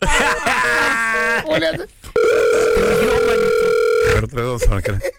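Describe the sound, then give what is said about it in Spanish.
A telephone dial tone follows a cut-off call: a steady single-pitch hum holds for about two seconds, with wavering, voice-like sounds before and after it. “se me cortó la llamada, perdón”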